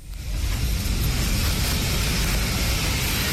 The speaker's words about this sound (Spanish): Así sonaba dentro del avión.